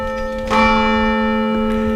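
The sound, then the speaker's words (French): A church bell rings from the church tower, its sustained, resonant tones hanging steady and loud. A fresh strike swells the ringing about midway, with no talk over it. “On va laisser passer la sonnerie qui est grenée par le clocher de l'église qui est juste derrière moi”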